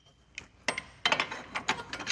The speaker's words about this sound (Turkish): Ve somun takıyorum. Yeterince sıkarsam çıkarmak için yeterli gücü üreteceğini düşünüyorum.